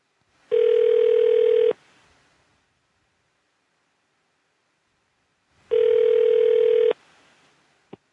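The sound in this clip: Telephone ringback on an outgoing call: two identical long, steady buzzing rings, each just over a second, separated by a long silent gap, with a brief click at the very end.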